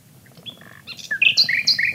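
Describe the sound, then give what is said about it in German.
Nightingale song: a string of varied, clear whistled notes and chirps, sparse and soft at first, then louder and denser high trills in the second half. “Der Gesang der Nachtigall hat schon viele Künstler und Künstlerinnen inspiriert.”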